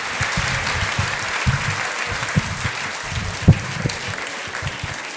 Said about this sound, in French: Un maximum d'applaudissements